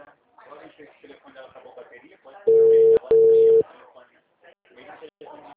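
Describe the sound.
During a phone call, two short telephone calling-tone beeps sound back to back at a steady mid pitch, loud against people talking before and after them.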